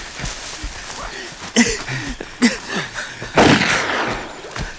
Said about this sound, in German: Die haben geschossen!